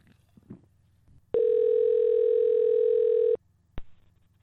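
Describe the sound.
A telephone dial tone as a call is placed: a loud, steady, unbroken tone holds for about two seconds and cuts off abruptly, followed by a single brief click.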